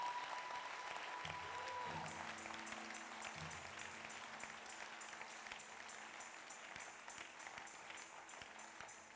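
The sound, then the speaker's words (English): Audience clapping at a sermon: dense, continuous applause of many hands that stays fairly loud throughout and fades slightly toward the end. “Oh, you missed a good place to clap.”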